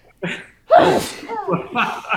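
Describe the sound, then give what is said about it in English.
A single sharp, loud sneeze bursts out after a short vocal intake, followed by further voiced sounds like talk or laughter. “I have to sneeze. Was that a sneeze? What was that?”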